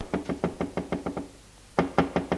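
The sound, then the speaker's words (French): Knocking on a door in quick, evenly spaced raps: a run of about eight knocks, a short pause, then another fast run of several more, crisp and fairly faint, with no voices. “L'on frappe à la porte.”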